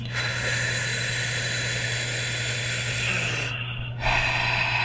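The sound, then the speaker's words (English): Deep breathing during a guided breathing exercise: a long, loud, airy inhale runs almost the whole time. It is briefly cut short near the end, then a fresh sharp extra intake of breath follows. A low steady hum runs underneath. “And on this last one, let's really even go for an extra inhale at the very top.”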